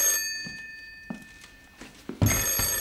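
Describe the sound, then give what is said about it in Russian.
A telephone rings in bright, steady metallic tones that fade out, followed by a quiet stretch with a few soft thuds, then the ringing resumes louder near the end. “Звонит телефон.”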